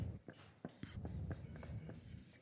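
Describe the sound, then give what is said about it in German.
Faint scratching of handwriting as the German word "Hoffen" is written, heard as a quick run of short strokes and light taps. “Ich schreibe jetzt hier mal das Wort Hoffen hin.”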